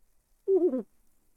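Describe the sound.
An owl gives one brief hoot with a wavering, slightly warbling tone, heard alone against near silence.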